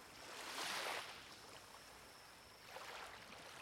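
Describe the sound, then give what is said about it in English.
Soft ocean waves wash in as two gentle, hissing swells, one early and one near the end, with a quiet steady rush between them; faint overall, with no voices. “You listen to the soothing sounds of the waves and reflect on how peaceful it is to be in such a private, secret place. Just you and the sound of the waves and your breath.”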